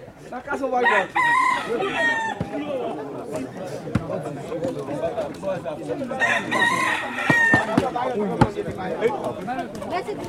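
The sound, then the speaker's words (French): Roosters crow at a cockfight being prepared in a Haitian village, where many men each hold a cock; two long, loud crows stand out over constant clucking, chatter and men talking. “Alors là, c'est un combat de coq qui se prépare ici. Hein? Oui, qui se prépare. Tous les hommes, là, ils ont chacun un coq. Il y en a beaucoup de coqs ici.”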